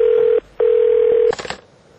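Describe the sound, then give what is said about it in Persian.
A telephone line tone for an incoming call: two steady, mid-pitched buzzing tones separated by a brief gap, then a quick run of clicks as the line connects and the sound fades. “هیچ از بروجرد زنگ میزنن.”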